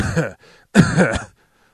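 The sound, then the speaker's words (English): Throat clearing in two rough, raspy bursts, the second louder and longer than the first, followed by quiet. “Excuse me, something in my throat.”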